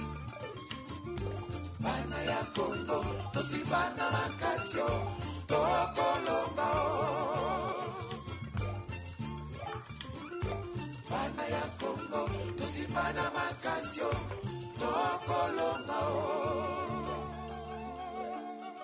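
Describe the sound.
Congolese band music from Kinshasa, Democratic Republic of the Congo: a lively, percussive groove with a steady driving beat, bright guitar-like lines and singing voices throughout.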